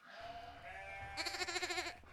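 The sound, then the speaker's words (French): Ewes and lambs of the Landes de Bretagne sheep breed bleating: a lower, steady call gives way to louder, higher-pitched wavering bleats. “Ce sont des moutons, ou plus exactement des brebis et leurs agneaux, et pas n'importe quelle race. C'est des races landes de Bretagne”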